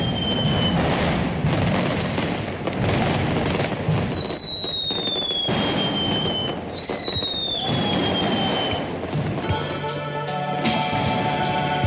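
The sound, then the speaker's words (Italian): Fireworks being set off at a celebration in Naples: many dense, loud crackling bursts and booms, with a few whistling tones that fall in pitch, continuous throughout. “veniva e viene festeggiata sparando fuochi artificiali.”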